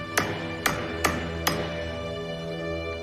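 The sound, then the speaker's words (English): Four sharp blows of a meat tenderizer striking a wooden makeshift wrench notched around a skylight nut, evenly spaced knocks each leaving a bright ringing tail, followed by quiet. “He strikes the wood with the meat tenderizer.”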